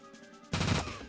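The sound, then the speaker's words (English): Automatic gunfire in a shooter video game erupts as a dense, rapid, loud burst halfway through, after a faint hum, and holds steady to the end. “Okay, automatic gun now. This is what we call bullet hose.”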